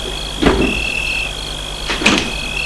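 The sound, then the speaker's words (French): An unlocked park gate is pushed open at night with two short clunking scrapes, one near the start and one near the end, over a steady high-pitched whine. “Vite, elle court au portail. Ouvre, Il n'était pas fermé.”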